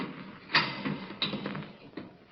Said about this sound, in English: right after that, I heard the heavy latch on the door being turned